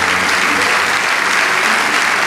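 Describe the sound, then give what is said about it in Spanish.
Loud, dense applause from an audience during a church sermon, with steady, continuous clapping and no speech over it. “Vamos, dale ese aplauso al Rey de Reyes.”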